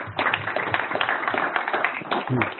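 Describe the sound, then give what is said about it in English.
An audience claps to welcome a speaker, a dense patter of many hands that starts abruptly and runs at a lively, fairly even level for a couple of seconds before tapering at the end. “let's have a nice welcome, hand of warm welcome for Dave Thomas too.”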